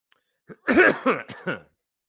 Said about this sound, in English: Excuse me. I got something caught in my throat.